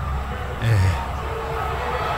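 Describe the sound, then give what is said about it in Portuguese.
Football crowd grumbling angrily at the referee, a continuous murmur of many voices that swells into a brief louder outburst early on, then settles back into a restless hum. “E a torcida tá na bronca aqui com o juiz, viu? Por toda essa confusão.”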